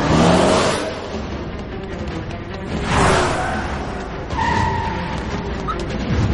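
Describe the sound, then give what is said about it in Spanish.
A car speeds away with another car following in a film scene. Its engine roars and revs loudly, with a surging whoosh of a passing vehicle midway and continued driving noise to the end. “El automóvil se aleja a gran velocidad seguido de otro coche. Bond corre hacia el aparcamiento.”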